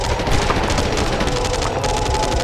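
Sustained rapid gunfire during a firefight aboard a ship, a loud, dense, continuous barrage with no pauses.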